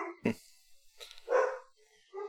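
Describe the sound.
Dogs bark faintly in a few short, separated bursts, with quiet gaps between the yips and no talking heard.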